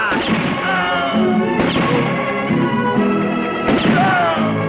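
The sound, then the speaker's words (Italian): Gunshots fired by a trick-shooting performer at a public exhibition in a town: three sharp, loud bangs spaced about two seconds apart over a constant bed of background noise. “Avanti campione, spara!”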